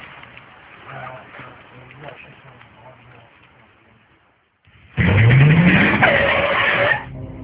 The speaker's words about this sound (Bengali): কি ব্যাপার, গাড়ি এখানে থামলে যে?